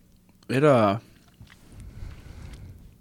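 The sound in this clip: Someone chews a shortbread cookie with no icing, a faint, crunchy chewing that follows a short voiced hum.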